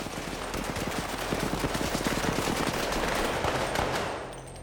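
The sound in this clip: Gunshots in a film scene: loud, dense, rapid-fire bursts like automatic weapons, merging into a continuous barrage that eases slightly at the very end.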